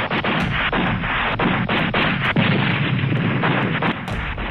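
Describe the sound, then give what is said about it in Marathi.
Heavy, indiscriminate gunfire from militants armed with sophisticated weapons near a village, a dense, continuous barrage of sharp cracks and bursts over a steady loud roar with no pauses. “गावाच्या जवळ पोहोचताच प्रचंड प्रमाणात अत्याधुनिक शस्त्र असणाऱ्या दहशतवाद्यांनी अंदाधुंद फायरिंग सुरू केलं.”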